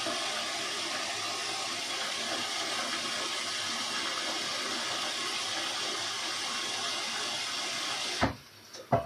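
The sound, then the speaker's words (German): Tap water runs in a steady, even rush that holds at the same level for about eight seconds, then cuts off abruptly, followed by a couple of brief knocks. “Ich weiß nicht, ob man mich jetzt gerade hört, deswegen lasse ich das Wasser mal kurz laufen.”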